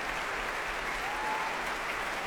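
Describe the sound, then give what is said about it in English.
A concert audience applauds and stamps its feet after a cello concerto performance, with dense, steady clapping at an even level and a low thumping rumble underneath. “Still, huge applause and thumping feet for Jean-Guyen Keras.”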